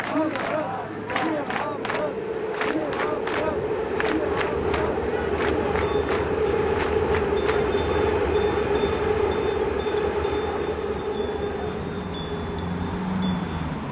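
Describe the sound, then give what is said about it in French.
A busy street in Schöneberg, Berlin, outside a Syrian restaurant, fills with a dense, steady babble of many voices, with sharp clicks and knocks scattered through the first half. “On est ici dans cette rue très passante du quartier de Schöneberg à Berlin, c'est au sud de la capitale, devant le restaurant Damascus Aroma, les arômes de Damas”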